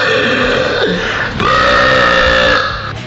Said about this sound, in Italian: Il rutto classico qual è? Quello di potenza, giusto? Tipo questo.